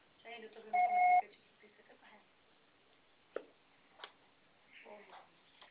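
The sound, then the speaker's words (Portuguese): An answering-machine beep sounds on a phone line after a voicemail greeting: one short, steady two-tone bleep of about half a second, followed by faint clicks and brief, muffled voice fragments. “Grave seu recado. Se você só será tarifado após o sinal.”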